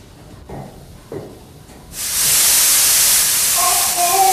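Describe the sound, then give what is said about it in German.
Loud, continuous hissing of steam bursting from a ruptured steam pipe in a ship's stoking room, erupting suddenly after a few faint knocks and then roaring steadily at high pitch to the end. “Mein Gott, ein Dampfrohr ist geplatzt.”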